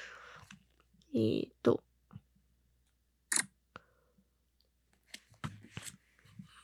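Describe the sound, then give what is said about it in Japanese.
A camera shutter takes a photo with a few short, crisp mechanical clicks and rustling bursts separated by quiet gaps. A soft voice murmurs near the end. “撮っちゃいますね。よいしょっと。ちょっと待ってね。じゃあ、写真撮っちゃいますね。”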